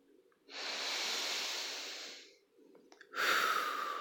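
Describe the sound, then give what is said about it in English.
Slow, deep breaths during a relaxation exercise, heard alone: one long, airy rush of breath, then after a short pause a second, brighter breath that runs to the end. “Just relax. Start by taking some deep breaths.”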